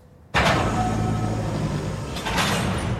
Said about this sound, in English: The door closes behind Alice.